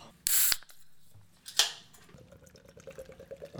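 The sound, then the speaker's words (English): Guinness beer being poured: two short, bright hissing bursts, then a faint, steady patter of soft bubbling ticks; a voice briefly exclaims once. “What is the sound of that Guinness?”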